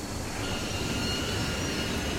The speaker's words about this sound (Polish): Informuje się, że pociąg wjeżdża właśnie na stację.